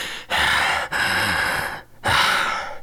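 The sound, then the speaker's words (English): Heavy, labored breathing of someone winded after flying: three long, loud, raspy breaths separated by short pauses. “You know I'm always out of breath after flying from a heavy day's work.”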